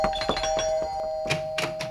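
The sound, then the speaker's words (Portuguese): A doorbell rings with sustained, clear pitched electronic tones, joined by a few short, dull bursts of knocking or handling noise. “Ah, por favor, só um minutinho que a campainha tá tocando. Já vou!”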